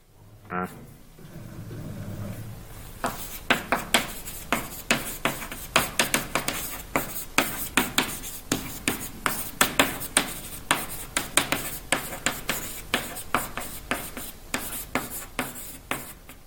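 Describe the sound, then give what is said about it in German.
Handwriting a title: many quick scratchy strokes at an uneven rhythm, fairly faint and alone. “schreiben wir erstmal den Titel hin.”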